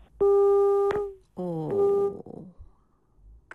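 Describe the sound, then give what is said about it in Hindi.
Phone disconnection tone after a call is cut off: a long, steady electronic beep, then a shorter tonal burst with warbling, falling overtones, then quiet. “इतना मुश्किल से phone लगा और phone cut गया।”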